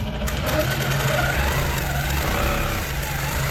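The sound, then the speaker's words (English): A quilting machine whirs in the sewing room of a country cottage, giving a steady, continuous mechanical drone that stays at an even loudness throughout, with no talking. “In a country cottage in the small town of Nabeaq, a quilting machine whirs to life.”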